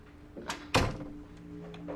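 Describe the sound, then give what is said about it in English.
A door is pushed shut with one solid, heavy thump. A lighter knock comes just before it, and a faint steady hum continues underneath. “Do you mind closing the door?”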